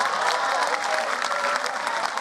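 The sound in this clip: Audience applause with some cheering for a performer, a thick, continuous patter of clapping at a steady level, with a voice faintly audible through it.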